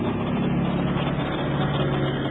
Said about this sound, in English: Neighbor truck.